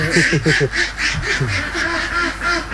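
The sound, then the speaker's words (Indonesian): Ducks quack in a crowded pen on a duck farm that holds about a thousand birds. Many loud, nasal quacks overlap in quick bursts, keeping the chatter continuous throughout. “Untuk satu kandang seperti ini, biasanya kapasitas bebeknya mencapai 1.000 ekor bebek.”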